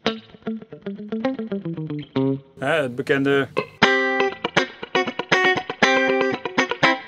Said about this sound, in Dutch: Dan heb je standje 2, dat is de mid en die. Moet je eigenlijk met een wat cleaner geluid horen.